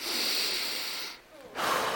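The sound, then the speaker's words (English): A deep breath: a long, airy rush of air, then a brief quiet pause and another breath of air. It is soft overall and no one speaks. “I want you guys to do something with me, if that's cool. I just want you to take a deep breath.”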